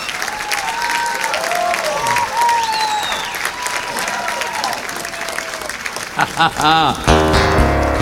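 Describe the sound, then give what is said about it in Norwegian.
Audience applause at a live concert: a dense, steady wash of clapping that runs throughout, with tonal sounds over it early on and louder bursts of clapping toward the end. “Ja, folk klapper.”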